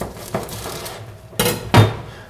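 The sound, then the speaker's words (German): A knife cuts green asparagus into pieces on a board, giving a few sharp, separate chopping knocks with quiet gaps between them. “Gut, jetzt schneide ich den grünen Spargel hier schön in Stücke.”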